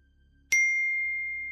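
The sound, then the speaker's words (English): A phone notification ping: one bright, clear ding whose ringing tone lingers and slowly fades, heard alone over near-silence. “When I sat back down, my phone pinged again.”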